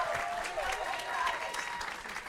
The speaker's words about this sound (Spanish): Lali, perdón, pero ponte de pie, te queremos aplaudir, te queremos felicitar.